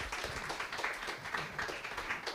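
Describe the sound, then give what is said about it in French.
An audience applauds an author at the close of a French book talk: a soft, even patter of many hands clapping that stays fairly faint throughout. “Je pense qu'on peut applaudir Sylvain Prudhomme.”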